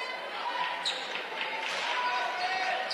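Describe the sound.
A basketball dribbled a couple of times by a player preparing a free throw at a high school boys' game, Westwood vs Marquette: a few soft bounces under voices and steady crowd murmur.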